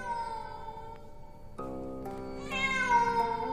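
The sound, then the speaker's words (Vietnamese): A black cat meows mournfully in the distance during a tense horror story scene. A few long, drawn-out wailing cries follow one another, growing louder toward the end, with no talk. “bất chợt ở đằng xa, đâu đó văng vẳng lên trong không gian, tiếng con mèo kêu. Con mèo kêu lên vô cùng thê thiết.”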